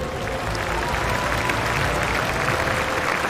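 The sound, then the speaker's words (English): Warm applause rises for the volunteers, ball kids and tournament staff at the China Open tennis ceremony: a dense, steady wash of clapping that holds at an even, loud level throughout. “感谢颁奖嘉宾，同时请用热烈的掌声向志愿者、球童以及全体赛事工作人员表示衷心的感谢。”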